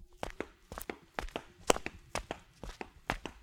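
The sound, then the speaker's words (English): Footsteps of people walking in palace gardens make a steady series of many crisp, evenly spaced steps at a brisk pace, alone without talk. “walk with me in the palace gardens while the table is cleared for the last course.”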